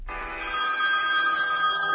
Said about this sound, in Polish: Przygotowali nieformalny hymn referendum w formie dzwonka na telefon.